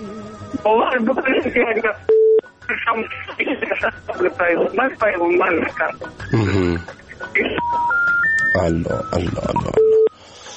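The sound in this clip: Electronic telephone tones as a dropped call is reconnected: a few short steady beeps and a quick stepped series of rising tones, set among nearly continuous talk.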